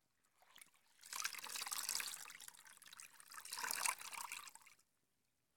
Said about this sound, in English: I'll just wash you so you can rest comfortably.